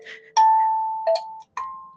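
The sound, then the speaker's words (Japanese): Kalimba notes ring out one at a time, a few clear, bell-like plucked metallic tones with a soft first note, each sustaining and slowly fading, with nothing else heard. “カリンバっていう楽器をもらって、ちょっとそれをね、遊んでる時間です。こんな綺麗な音が鳴る。”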